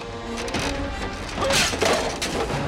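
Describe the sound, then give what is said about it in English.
A caravan crashes as a creature tips it up: a dense, loud mass of banging, clattering and scraping with a low rumble, swelling louder past the midpoint. “The creature tips the caravan up.”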